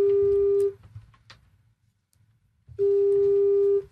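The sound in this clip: Ringback tone of an outgoing telephone call to a listener: two long, steady, mid-pitched beeps separated by a quiet gap of about two seconds.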